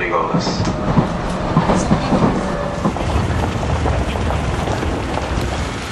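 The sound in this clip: Steady rumble and rattle inside a moving commuter train carriage in Japan. A dense, continuous noise runs fairly loud throughout with no clear breaks.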